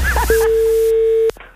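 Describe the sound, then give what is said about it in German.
Telephone line tone: a single steady mid-pitched beep lasting about a second, preceded by brief garbled sounds and cut off by a click. “Das Telefon.”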